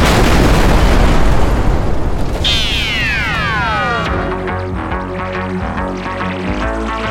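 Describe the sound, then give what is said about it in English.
An explosion at a fuel depot down a narrow alley roars as a loud, sustained blast, with high whistling tones sweeping downward in pitch partway through before a ringing rumble continues. “We walked on down the narrow alley to the fuel depot. That's when it exploded.”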